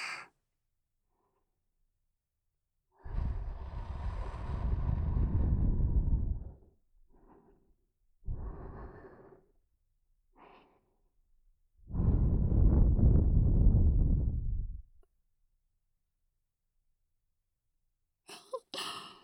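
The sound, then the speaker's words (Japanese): Soft breaths blown into the ear at the end of an ear cleaning: several long, airy whooshes separated by silence, with a few shorter puffs between them. “息を吹きかけるたびにお顔緩んじゃったね。”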